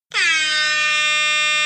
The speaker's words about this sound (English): There's a honk. Honk.